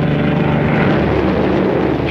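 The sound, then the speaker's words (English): A bomber plane takes off from a carrier deck and climbs, its engines giving a loud, steady, even drone with no clear change in pitch across the stretch. “the two pilots pull back the control column and the plane lumbers upward”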